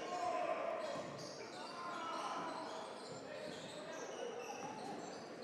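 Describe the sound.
Basketball dribbled on a court during a boys' varsity high school game, with repeated bounces barely standing out beneath steady loud crowd noise and voices.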